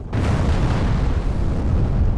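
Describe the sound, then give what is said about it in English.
A French warship's ammunition magazine catches fire and explodes in battle: a sudden loud onset followed by a sustained, deep, roaring rumble that stays heavy and even to the end, with no voices. “the magazine, the ammunition storage of L'Orient, caught fire and exploded.”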